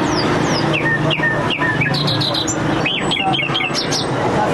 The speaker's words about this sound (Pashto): دا د کندهار ښار په منځ کې د وحشي مرغانو د پیر او پلور بازار دی دلته پلسکونه بیلابیل ډول وحشي مرغان لکه بلبلان جلان زرکی میناوی او نور چې په غرنوی او ځنګلي سیمو کې نیول سوي پلورل کیږي